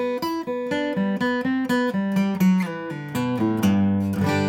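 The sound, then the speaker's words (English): Guitar lick on open strings, a quick, even run of bright plucked notes that settles into a ringing G chord at the end. Played alone, with no talk. “it's a great way to end a song, especially if you cap it off with a G chord. Much like I played before, it sounds like this.”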